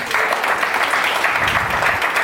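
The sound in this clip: Dense, steady applause from a group, continuous and even in loudness throughout, with no talk over it.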